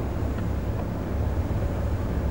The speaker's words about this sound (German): Da kannst du auch ein bisschen mehr Gas geben. Willst du, dass ich Wolfgang einfach überfahre?